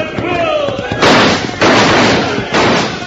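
Rifles firing in three loud, rough bursts, each a sustained crash of noise lasting about half a second, spaced roughly half a second apart, over a busy background.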